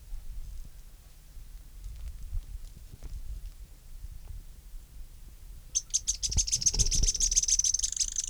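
Sharp notes of a Synallaxis spinetail, a rapid run of many high, thin repeated notes that starts suddenly partway through and continues to the end over a low background rumble.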